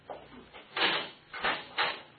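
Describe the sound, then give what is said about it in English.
A prison cell door is opened, heard as a few rough, muffled rattling and scraping bursts of metal, each lasting a fraction of a second. “Get the cell door”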